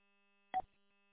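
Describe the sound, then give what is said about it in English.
A radio repeater sends its short electronic call tone: one brief, bright beep that stands out clearly against near-silence and then stops. “Just heard the repeater do its little call there.”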